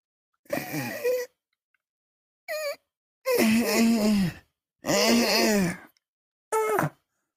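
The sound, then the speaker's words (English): A man crying and wailing in five drawn-out, loud vocal bursts with wavering, moaning pitch, separated by short silences and heard alone. “I'm out here crying my eyes out, and I get no respect.”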